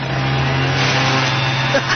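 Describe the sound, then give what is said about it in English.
A leaf blower that doubles as a vacuum chops leaves with a loud, steady motor drone and a low, constant hum throughout. “My new leaf blower is also a vacuum. Huh. Watch it chop these leaves into tiny little bits.”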